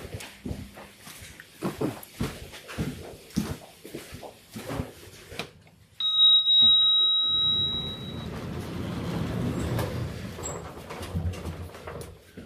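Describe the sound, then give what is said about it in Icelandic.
A lift bell rings with one sustained tone, then the lift runs with a steady low mechanical hum that continues to the end. “þá er nú best að taka liftuna hérna”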